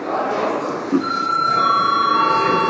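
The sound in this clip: Electric voting bell ringing in a council session, a continuous rapid trilling ring with high tonal edges that starts partway in and holds steady over a dense room noise.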